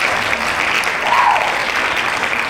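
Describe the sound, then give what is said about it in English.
Dense hand clapping in a burst of applause for a birthday shout-out, loud and steady for the whole stretch, with no voices. “Hand clap.”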